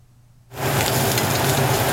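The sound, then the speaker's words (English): Loud, steady sizzling of fresh shrimp, squid and scallops searing in a hot pan in a restaurant kitchen. The hiss starts abruptly after a quiet half-second and holds at an even level, with no voices. “Fresh shrimp, squid and scallops are seared in the pan, then simmered on low with guanjin rice.”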